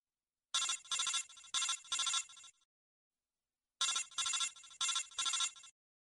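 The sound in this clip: An electronic telephone ringtone signals an incoming call: two bursts of four bright, warbling rings each, separated by a few seconds of silence, with no voices.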